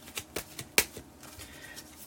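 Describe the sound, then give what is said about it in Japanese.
Oracle cards are shuffled by hand during a fortune-telling session: a few faint, crisp slaps and flicks at irregular intervals, with no talk. “カード切ってます。”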